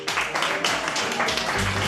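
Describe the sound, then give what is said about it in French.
Audience applause during a show-of-hands vote for Colombian coffee, short bursts of clapping mixed with shouting voices, fairly loud and unsteady across two seconds. “Qui applaudit pour le café colombien?”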